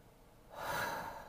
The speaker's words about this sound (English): I want you to close your eyes and take a deep breath, and we're going to do it together.